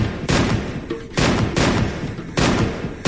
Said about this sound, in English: I got my Browning out with my left hand and started firing wildly,